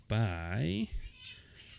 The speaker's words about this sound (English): she's not a quiet cat. just pull her off the table.